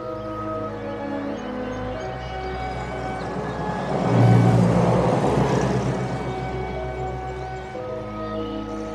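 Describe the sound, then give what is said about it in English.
A vehicle, an ambulance driving down a tree-lined lane, rumbles along steadily, swelling louder around the middle before easing back, over a continuous low tonal hum. “ambulance drives down a tree-lined lane toward a large two-story building.”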